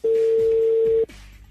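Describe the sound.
Outgoing telephone call ringing on the line: one steady, even electronic ring tone lasting about a second, then it cuts off to faint low background noise.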